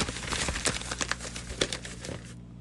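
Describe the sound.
Paper crinkling and tearing as an envelope is opened at an awards announcement: a quiet, continuous rustle of many small crackles that stops abruptly near the end.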